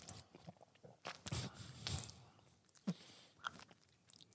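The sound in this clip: Chewing food while tasting it: quiet, moist crunching and munching bites repeating irregularly throughout, with no talk.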